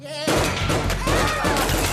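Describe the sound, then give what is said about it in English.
Gunfire from an action scene where characters dodge a sergeant's attack: a loud, dense barrage of shots that bursts in abruptly and keeps going without a break, the cracks blurring into a continuous rattle. “21 and the Monarch dodge gunfire from Sergeant Hatred.”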